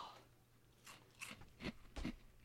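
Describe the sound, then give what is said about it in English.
Crunching and chewing of dry, slightly stale cereal that tastes like Lucky Charms and has a chewy, Styrofoam-like texture: a few faint, crisp bites in an uneven rhythm that grow a little stronger toward the end. “Hey, guess what? Tastes like Lucky Charms. A little bit stale, though. Styrofoamy, chewy.”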